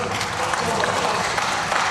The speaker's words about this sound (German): Sie klatschen ja jetzt so euphorisch